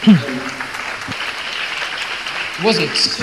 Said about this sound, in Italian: non ho mica detto una cosa geniale, che mi applaudite a fare?